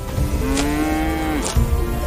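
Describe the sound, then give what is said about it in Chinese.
Cattle mooing from a herd of over 200 small yellow cattle driven onto mountain meadows at dawn: one long, steady, loud moo, followed by lower lowing. “每日天刚亮，杨军便赶着200多头小黄牛进山”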